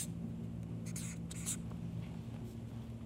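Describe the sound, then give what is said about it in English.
Handwriting with a pen: faint scratchy strokes come in a short cluster of bursts near the middle, over a low, steady hum. “So for those listening on this on the podcast, I'm just writing this.”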